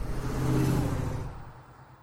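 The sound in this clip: A car driving along, a steady low rumble of engine and road noise that swells slightly, then fades away toward the end.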